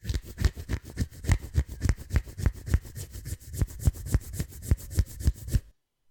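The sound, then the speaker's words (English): Fingernails scratch a surface in many quick, evenly spaced strokes, a dry raspy rhythm of moderate loudness that keeps up steadily for several seconds and then stops abruptly into silence. “Scratch, S-C-R-A-T-C-H, is when you do this.”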